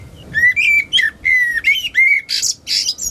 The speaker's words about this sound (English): Sounds like a blackbird. And I said, it sounds like a blackbird. And it was. You could hear it singing very clearly.